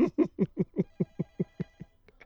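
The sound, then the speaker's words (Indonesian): Telephone ringing with an incoming call, heard as a rapid, evenly spaced train of buzzing pulses that gradually weaken toward the end. “Oke, kita terima telepon dulu.”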